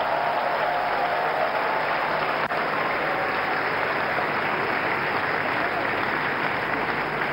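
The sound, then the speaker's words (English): A church audience applauding during a worship service: steady, dense clapping from many hands that holds at an even level throughout, with no voice over it. “If you believe that we serve an awesome God, let me hear you put your hands together for Jesus.”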